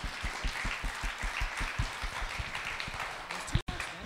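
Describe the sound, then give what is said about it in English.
A church audience claps during a service. The soft, rhythmic applause runs beneath talking voices and ends with a brief louder knock just before a sudden gap. “Come on, give God a big round of applause.”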